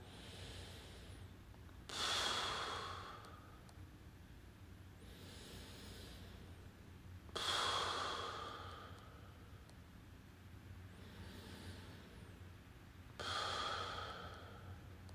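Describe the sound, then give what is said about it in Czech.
Slow deep breathing during a relaxation exercise, drawn in through the nose and out through the mouth: three quiet cycles, each a soft airy inhale followed by a louder rushing exhale, with no talking. “můžeme si dát na začátek pár hlubších nádechů a výdechů. Nádech nosem, výdech pusou.”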